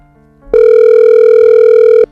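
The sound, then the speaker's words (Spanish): A telephone tone sounds during a phone call: one loud, steady, continuous tone holding for about one and a half seconds, then stopping abruptly, with nothing else audible. “Y hace una llamada. A ver si lo coge.”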